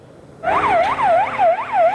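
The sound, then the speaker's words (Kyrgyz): An ambulance siren in Afghanistan, rushing to the scene of an attack, wails loudly and starts abruptly, rising and falling in several quick, regular cycles. “Адам өмүрүн сактоого ашыккан тез жардам унасы”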